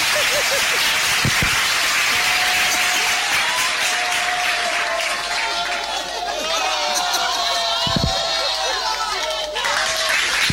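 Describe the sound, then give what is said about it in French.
An audience applauds and cheers at an afternoon podium event, acclaiming a radio station and its director general. Dense, continuous clapping and crowd noise is mixed with shouting voices and whistles. “Public, on va acclamer la radio et son directeur général.”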